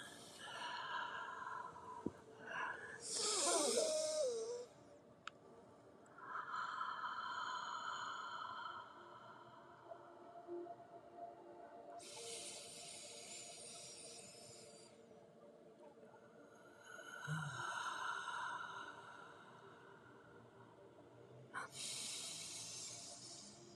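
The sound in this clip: Slow, deep breathing during a guided breathing exercise: several long, airy inhales and exhales follow one another with quiet gaps between them, soft and unhurried, with no voice present.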